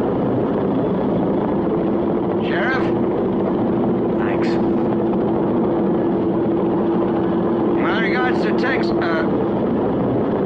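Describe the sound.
A helicopter's engine holds a steady, even drone with a constant hum through the whole clip, while brief voices come and go over it.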